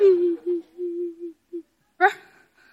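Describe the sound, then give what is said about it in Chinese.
A woman sobs and whimpers in several broken, wavering bursts, each low and drawn out, then lets out one sharper, higher gasping cry. “你哭什么呀？别哭，憋回去。”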